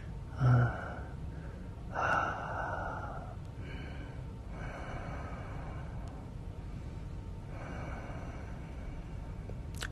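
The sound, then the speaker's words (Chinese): Faint human breathing comes from someone lying in bed with an air conditioner running, opening with two sharper inhalations and then softer breaths repeating at intervals over a steady low hum. “除了空调的声音，我好像听不到任何的声音。哦对了，还有你呼吸的声音”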